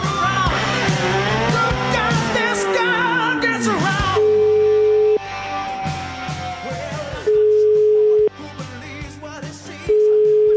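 Telephone line tones while placing a call: after a stretch of music, three long steady tones at one fixed pitch come in separate pulses, with quieter line noise filling the gaps between them.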